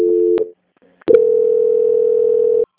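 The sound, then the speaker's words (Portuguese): Telephone tones as a customer service call is transferred to a quality control line: a short tone ending in a click, a brief gap, then a long, steady, loud tone that stops abruptly. “peço que a senhora aguarde em linha que eu vou transferir o contato para o controle de qualidade e dará continuidade à contratação”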